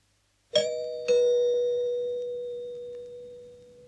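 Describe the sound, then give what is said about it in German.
A doorbell rings with a two-tone ding-dong chime. Two clear strikes come about half a second apart, and the second tone rings on and fades slowly over several seconds. “es klingelt. Mach doch bitte auf.”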